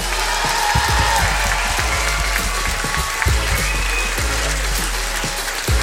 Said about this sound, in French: Un tonnerre d'applaudissements pour Monsieur Johnny Perron-Mesquel.